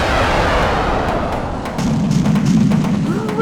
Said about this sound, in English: How dare you shoot your puny rockets at me!